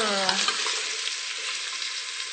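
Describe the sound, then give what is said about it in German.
Onions sautéing in a pan as they are stirred, giving a steady bright sizzle with faint scraping throughout, alone and without talk. “Bis die Zwiebeln ungefähr so goldbraun sind oder bis es angedünstet ist einfach. So 15 Minuten? Ja. Bisschen umrühren.”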